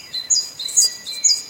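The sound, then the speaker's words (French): Song of a tit (mésange): three bright, high-pitched chirps come in quick succession, each short and clear over a faint background. “Dans la vraie vie, les mésanges, ça sonne comme ça.”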